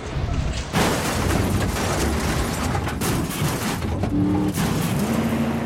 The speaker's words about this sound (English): Cresting a rise, Brian rams a pickup that got ahead of him, pushing it sideways down a steep slope.